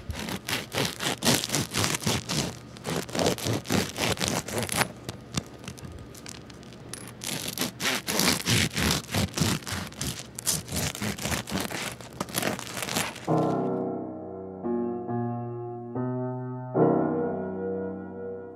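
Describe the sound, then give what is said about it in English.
An electric turkey slicer saws through a loaf of bread with a dense, rapid, buzzing rasp that keeps on for many seconds. Gentle tonal music follows at the end. “if you have, a turkey slicer at home that you use just once a year, it works great for cutting bread. It is an awesome piece of equipment that you can use more than once a year. And so we're going to cut this.”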